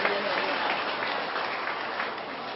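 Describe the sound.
Applause from an audience at a village gathering, a dense, steady wash of many hands clapping that holds at an even, moderate level from start to finish.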